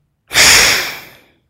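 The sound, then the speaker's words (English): A single long, forceful exhale through one nostril, a loud rushing blast of air that starts sharply and tapers away over about a second, heard alone. “a long, forceful exhale through side one and a long, deep inhale on side two. Exhaling side one.”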